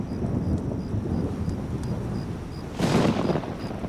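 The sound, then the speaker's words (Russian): Thunder rolls through a storm with lightning, a steady deep rumble that swells into a louder, harsher burst near the end before settling back to a low roar. “Гроза. Гремит гром, сверкает молния.”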